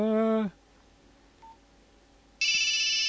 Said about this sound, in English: There it goes. Oh, that's the phone. Let's see who that is.